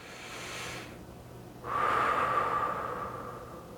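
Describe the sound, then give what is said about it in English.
A single slow breath taken as part of a prayer and mindfulness exercise, a soft airy rush that swells in and then fades gently, heard alone over a quiet background. “One breath.”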